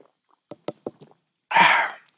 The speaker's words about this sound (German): Und ich habe das beste Lager der Gegend, das ist das sogenannte Tegernseer Hell. Das öffne ich jetzt. Und jetzt trinke ich auch davon.